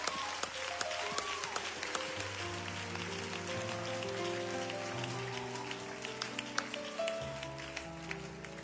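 Applause from a church audience welcoming the pastor of a Pentecostal church, dense steady clapping that runs the whole time alongside sustained musical chords.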